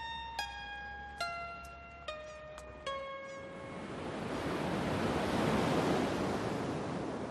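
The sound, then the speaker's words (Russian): Waves break on a wide sandy shore, a broad rushing wash of surf that swells and keeps roaring steadily. A short series of ringing chime notes sounds first, then fades into the surf. “Широкая песчаная береговая полоса, выбрасывающая волны на берег водная стихия, теряется в туманной дымке.”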